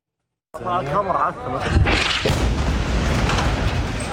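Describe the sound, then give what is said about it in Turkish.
Explosion at night in Deir el-Belah, Gaza: voices give way to a deep boom, and a sustained roaring rush of noise follows. “Şiddetli bir patlama yaşandı.”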